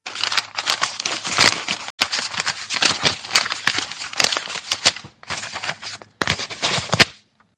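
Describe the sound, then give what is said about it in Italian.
Paper utility bills rustle and crinkle in near-continuous handfuls, a dense crackling texture broken by a few short pauses. “Questo rumore che sentite, questo rumore di carta, sono le bollette.”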